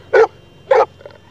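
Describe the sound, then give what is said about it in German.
A dog barks twice, sharp and evenly spaced, followed by a fainter, softer yap, all over a quiet, low background hum. “Sie haben einen Hund mitgebracht? Ja, ein Hund mit Pferdemist.”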